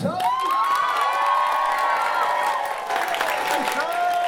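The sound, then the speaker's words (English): Audience applause and cheering with scattered whoops welcome a speaker onto the stage, a steady, loud wash of clapping and shouts that lasts throughout. “So please, can we give a warm, warm round of applause for Aisha”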